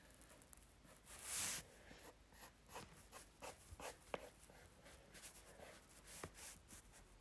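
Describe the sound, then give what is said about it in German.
A pencil sketching a light circle on paper makes a run of soft, scratchy strokes, very faint overall, with one brief louder hiss near the start. “Okay, also erstmal skizzieren wir einen ganz leichten Kreis.”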